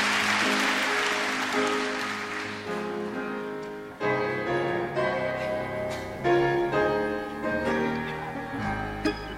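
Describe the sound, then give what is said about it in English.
Hammond organ playing sustained, shifting chords as applause fades out at the start, the organ carrying on alone. “Little Hammond organ action.”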